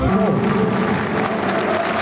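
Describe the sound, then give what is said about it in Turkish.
Crowd applause fills a football stadium at a match, a sustained, loud wash of clapping that holds steady throughout. “Alkışlar Fraport'a, Antalya Spor'a.”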